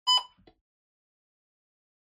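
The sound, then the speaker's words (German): A low battery warning beep: a single short, bright electronic tone that lasts a fraction of a second, followed by a faint softer blip and then silence. “Achtung, Leute, es piept ganz kurz. Ihr wisst, Akku.”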